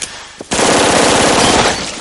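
Automatic gunfire in a film shootout in a columned lobby: a single rapid burst of loud, evenly spaced shots lasting just over a second, with no voices.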